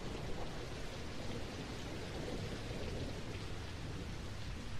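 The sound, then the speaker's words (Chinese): Steady rain falls as a dense, even hiss of countless drops, holding a constant loudness for the whole stretch with no voices. “听到这雨声了吗？用心去听”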